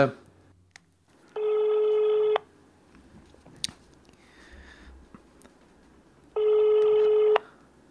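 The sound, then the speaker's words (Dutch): Telephone ringback of an outgoing call: two long, steady buzzing tones about four seconds apart, with quiet rustling between them. “ik ga Danny even bellen, hè”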